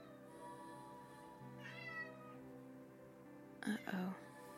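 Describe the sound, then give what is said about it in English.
Two cats meowing back and forth: a drawn-out, wavering meow first, then a couple of shorter, louder cries later, all fairly faint. “two cats were just having a conversation.”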